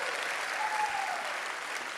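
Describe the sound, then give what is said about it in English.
Audience applause welcoming Porch Live locations at a church gathering, dense, even clapping that stays loud and continuous throughout. “Can you help us welcome them?”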